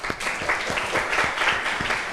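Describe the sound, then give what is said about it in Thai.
A group claps for a participant during a discussion about a picture, a short burst of brisk, dense clapping with a few sharper individual claps standing out through its two seconds. “ปรบมือให้ม่อนหน่อยครับ”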